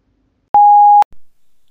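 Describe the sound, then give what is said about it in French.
Answering machine beep: a single steady mid-pitched electronic tone lasting about half a second, followed by faint low rumbling noise. “Laissez un message après le bip.”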